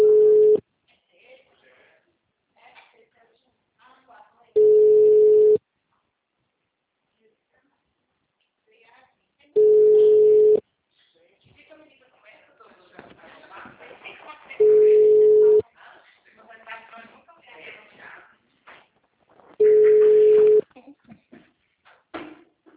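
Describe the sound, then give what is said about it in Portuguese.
A telephone line tone sounds while a call is redialed after dropping: five long, steady, even beeps spaced about five seconds apart, with faint voices and background noise in the gaps between them. “é porque eu tava falando com você e a ligação caiu.”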